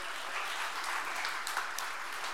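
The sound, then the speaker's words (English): An audience applauds with a dense, steady patter of many hands clapping. It holds at an even level for the whole short stretch with no speech. “Could we give her a round of applause?”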